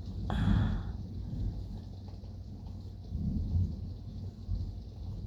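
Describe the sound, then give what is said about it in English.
A thunderstorm with rain: low thunder rumbles swell near the start and again midway over a steady hiss of falling rain. “just resting against you as we listen to the storm”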